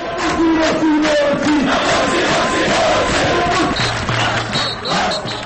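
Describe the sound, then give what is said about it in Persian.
A march of tens of thousands of Mohamed Morsi supporters in Cairo loudly chants the ousted president's name, a dense, continuous roar of massed voices and shouts throughout. “در جریان راهپیمایی در پایتخت ده ها هزار تن از مردم با صدای بلند نام رئیس جمهور برکنار شده را یاد می کردند.”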